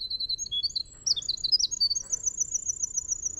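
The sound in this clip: A small, stubby-tailed bird sings a long, continuous song of high, bright chirps and trills that runs without pause, fairly quiet over a faint low background rumble.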